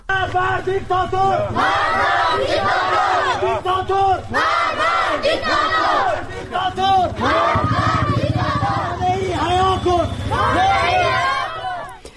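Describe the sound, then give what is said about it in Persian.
Crowd of protesters chanting in the streets of Rask, Iran, rallying behind local Sunni clerics. Loud, rhythmic, many-voiced chants come in repeated swelling bursts, continuous throughout, over a steady low drone. “تصاویری که از راسک منتشر شده نشون میده که مردم توی خیابون‌ها هستن برای حمایت از مولوی عبدالغفار نقشبندی، امام جمعه اونجا که به دادگاه ویژه روحانیت احضار شده، و همچنین مولوی عبدالحمید که تحت فشار شهید حکومت است. صدای راسک رو میشنویم.”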